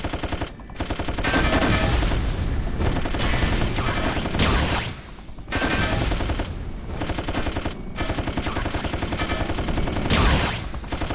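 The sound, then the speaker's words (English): Machine gun fire in long, loud, dense bursts of rapid shots, broken by a few brief pauses between volleys. “Nukes. Machine gun.”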